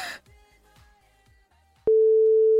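Telephone line tones while calling a contest finalist: a few faint, evenly spaced low ticks, then a sudden loud, steady single-pitched tone that holds unbroken to the end.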